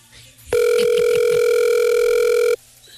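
Telephone ringback tone on an unanswered call: one loud, steady buzzing tone that holds for about two seconds and then stops abruptly, with nothing else over it.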